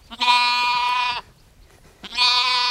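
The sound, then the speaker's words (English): Orphan lambs bleating on a farm: two long, high, bright harmonic bleats separated by a quiet gap of about a second, the second call cut off at the end, with no talk. “Dr. Beth Jensen and her family adopted these orphan lambs. They're just a few of the dozens of animals on the farm”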